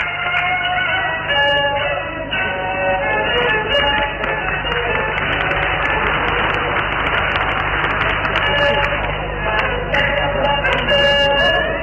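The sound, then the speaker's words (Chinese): Audience applause at a live 1995 Peking opera performance of The White Snake in Tianjin, a dense continuous clatter of clapping blended with opera music that swells through the middle and continues to the end. “请您听听《小乖乖》这一唱段当中观众的热烈。”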